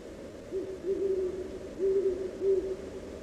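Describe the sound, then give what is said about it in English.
A few low, soft owl hoots carry through the outdoor night, each call a steady tonal note over a faint background hush. “Somewhere, an owl calls, "Ooh, ooh," and the vastness becomes larger still.”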